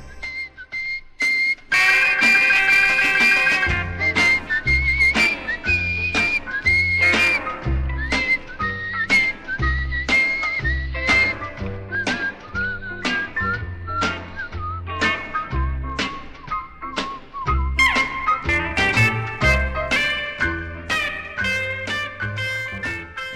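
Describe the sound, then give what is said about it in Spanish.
Several people whistle a bright melody over a steady, rhythmic musical backing with a pulsing low beat. The tune carries loudly throughout, with no talking. “En Música Sin Final, nos encanta silbar melodías”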